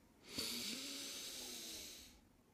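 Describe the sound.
Snotty nasal breathing through the nose: one long, hissing breath lasting about two seconds, with a faint snuffly rattle near its start.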